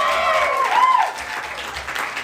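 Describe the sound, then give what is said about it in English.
Audience clapping at a live show, a continuous patter of many hands with a voice briefly heard over it near the start. “Y'all clapping for yourselves tonight.”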